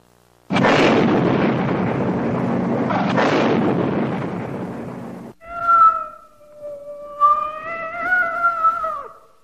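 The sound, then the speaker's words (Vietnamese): A large sealed cardboard box bursts into flames and explodes in a smoldering trash pit with a loud, sustained roaring blast, followed by a long, anguished, wavering cat yowl. “Một tiếng meo dài thảm thiết vang lên, cùng một chú mèo bị hất tung lên như một tên lửa chói sáng, rồi lại rơi vào hố tro tàn.”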